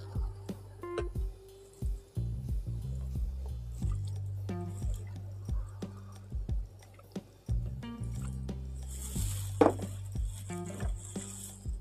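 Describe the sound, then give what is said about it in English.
A lighter being refilled: scattered soft clicks, squishy taps and small wet drips, with a brief bright hiss of gas late on, all fairly quiet. “Filling up my lighter. Or refilling it, I should say.”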